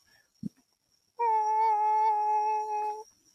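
A cat meows once in a sustained, steady-pitched, clear tonal cry lasting nearly two seconds. A brief low thump comes just before it, and no voices are heard.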